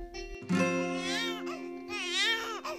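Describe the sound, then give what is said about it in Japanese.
Crying in a small apartment comes as two wavering, high-pitched sobbing bursts, drawn out and rising and falling, over a steady low tone. “あまた泣き出しちゃったねもう”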